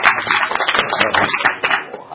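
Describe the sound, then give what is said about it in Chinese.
Applause from a group at a meeting approving a nomination: dense, steady, fast clapping sustained for about two seconds. “冇第二个提名啦嘛。冇，咁我哋就鼓掌通过，好啦。”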